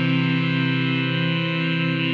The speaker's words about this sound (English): Wow, that was beautiful, teleportation machine.